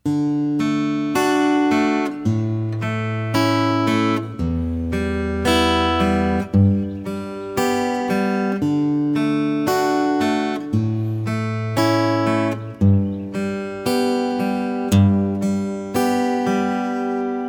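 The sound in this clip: Fingerpicked chords on a plucked string instrument play the first four measures of a song's first verse, using D and G chords and a picking pattern with pinches. Bass notes shift as the chords change, and the playing is steady and clear, with no talking.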